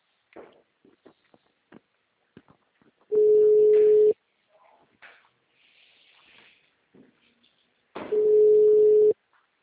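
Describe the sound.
A telephone rings twice, each ring a long steady electronic tone of about a second, separated by several seconds of scattered faint knocks and soft sounds.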